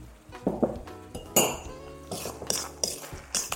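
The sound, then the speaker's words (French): A spoon or utensil roughly mixing crumbled feta with thick crème fraîche in a bowl, giving a series of irregular clinks and scrapes against the bowl, moderately faint, with no talking. “Je mélange grossièrement, vraiment grossièrement.”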